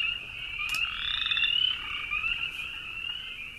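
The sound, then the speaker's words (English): Frogs croaking in spring, kept in a big bag, give a steady high-pitched trilling chorus that runs without a break, swelling slightly in the middle and then easing back, with no voices over it. “I got a big bag of frogs here. Listen to that.”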